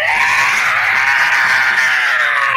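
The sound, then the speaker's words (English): A piercing shriek from inside a stone idol after an arrow strikes its heart, a loud, high, harsh wail held continuously for the whole clip. “shrieking from inside of the idol, piercing shriek.”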